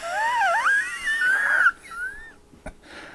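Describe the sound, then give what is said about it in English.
A high, whistling wheeze wavers up and down in pitch for over a second and a half. A shorter, fainter rising whistle follows, then a brief sharp click near the end. “Right there, it sounds like a wheeze.”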